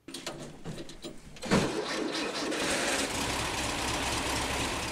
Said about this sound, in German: Ein Sound, der eigentlich Autogeschichte hätte schreiben müssen. Doch letztendlich hat Volkswagen den Zuschlag bekommen. Dieser Prototyp von Friedrich Eugen Meyer ist gescheitert, hat es nie in die Produktion geschafft,